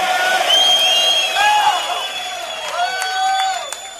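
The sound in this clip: Cheering from a live concert audience in the United States, with a continuous roar of crowd noise and whoops and whistles rising through it.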